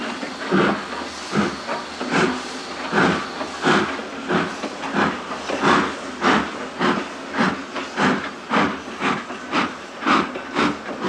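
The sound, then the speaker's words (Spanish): A train pulling away from a station platform, heard as a long run of loud, regular, rhythmic hissing chuffs repeating at a steady pace. “El revisor le arroja el libro y cierra. El tren parte.”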